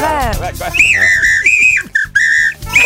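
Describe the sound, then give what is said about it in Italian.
A short whistled jingle with bright, melodic notes that hop between a few pitches, loud and clear, with a brief voice at the start. “non sono i vigili, lo dico per quelli che magari in macchina adesso non si aspettavano di sentire questo fischiettino”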